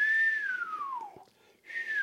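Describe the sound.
Whistle-like tones picked up by a radio antenna: a long, clear tone glides steadily downward in pitch and fades, then after a short gap a second high tone starts and holds toward the end, over faint hiss.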